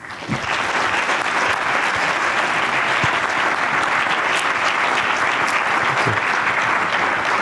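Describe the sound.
Audience applause welcoming a professor invited as a speaker at a talk. Dense, even clapping swells quickly at the start and then holds steady and loud for several seconds, without a break or voices.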